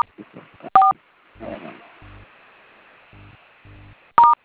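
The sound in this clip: Telephone keypad tones dialing star codes: two sharp, loud dual-tone beeps, one near the start and one at the end, with a few shorter, lower buzzy tones and some noise between them.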